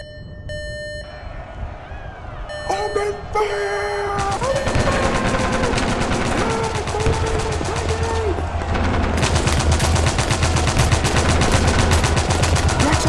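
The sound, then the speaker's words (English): Gunfire in a battle, starting with a few shifting tonal sounds, then breaking into dense, rapid bursts of shots that stay loud and continuous to the end. “Aim all your fire at Vex! Direct hit! Direct hit!”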